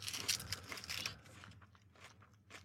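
Crunchy chewing of dry honey corn cereal mixed with bacon snacks, eaten without milk. Quiet, irregular crisp crunches come densely in the first second, then turn sparser and softer.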